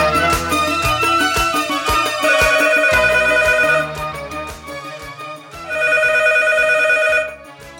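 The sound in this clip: A musical telephone ringtone sounds for an incoming call to a show, a bright tonal melody played loud in two long bursts with a softer dip between, and no talk.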